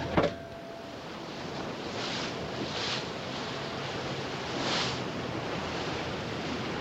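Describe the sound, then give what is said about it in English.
Wind and ocean surf around a fleet of warships sailing beneath dark skies on open sea. A steady, rushing wash with two gentle swells partway through follows a brief thump at the start. “A fleet of warships sailing beneath dark skies in a vast expanse of ocean.”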